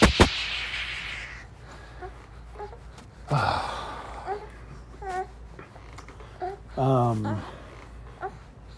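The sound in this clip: A young child whines at bedtime, fussing instead of sleeping, with a few faint, short whimpers and a longer, strained wail near the end over a quiet, hushed background.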